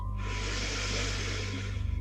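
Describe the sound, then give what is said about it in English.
A slow inhalation through the nose during a guided relaxation breathing exercise: a soft, steady, airy hiss lasting nearly two seconds over a low background hum. “Last one, breathing in through your nose”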